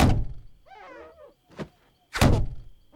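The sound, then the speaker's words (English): Rabbits thrown against a window make three dull, heavy thumps, the last the loudest, with a brief squeaky warble between the first two. “The buck is outside throwing rabbits at the window.”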